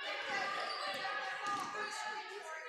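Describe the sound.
A basketball is dribbled up the court during a women's game featuring Bradford and the Lady Owls. Repeated bounces sit under a commentator's continuous play-by-play talk.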